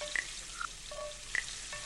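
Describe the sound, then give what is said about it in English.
Food frying in a restaurant kitchen makes a steady sizzling hiss, with a few short, light metallic clinks over it. “A restaurant kitchen. I didn't know there were so many different kinds of pots and pans.”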